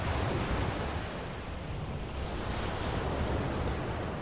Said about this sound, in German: Die Wellen funktionieren, die Wellen beruhigen mich.